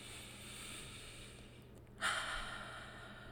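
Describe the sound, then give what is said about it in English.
One deep inhale during a guided inner child meditation: a soft, airy rush of breath that swells briefly and then fades over a low, steady hiss, with no voices. “I want you to close your eyes and take a deep breath.”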